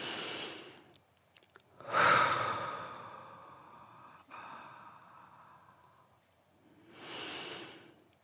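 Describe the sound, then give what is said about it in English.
Slow, deep breathing with no talk: a few long, airy breaths, the loudest a sighing exhale early on, followed by a softer drawn-out breath and another full breath near the end. “So how about we all just take a breath?”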